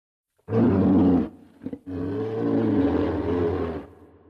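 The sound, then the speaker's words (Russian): Loud, deep roar of a shaggy-furred beast among stone walls: one sustained bellow, a few short grunting bursts, then a second, longer growling roar that ends abruptly. “Грудная клетка расширилась, втягивая воздух. И он издал рев.”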